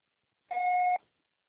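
A single voicemail beep sounds on a Portuguese-language phone line: one steady, mid-pitched electronic tone lasting about half a second, clean and alone, starting and stopping sharply.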